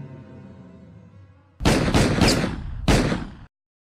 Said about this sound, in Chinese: 几声枪响，一颗子弹由克里斯前胸穿入，高定的脚踝被另一颗子弹击中